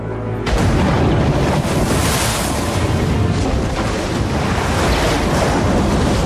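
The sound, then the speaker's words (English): A storm at sea at night, with wind and waves buffeting a ship. A dense, roaring wash of noise swells in after a brief quieter moment and stays loud and continuous throughout. “The interceptor is being buffeted in a night storm.”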